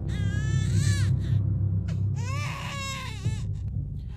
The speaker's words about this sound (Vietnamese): mà đứa bé con ấy khóc lên choe choé, chính là tiếng khóc lúc nãy nó đang nghe được.